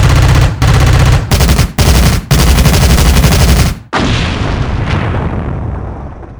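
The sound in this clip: Loud rapid machine-gun fire in a comedic police shootout scene: five dense bursts separated by brief gaps, ending in a heavy boom that rumbles and slowly fades.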